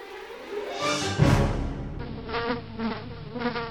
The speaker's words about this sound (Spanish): Mirá, hijo, un mosquito, yo lo mato a ver si te pica.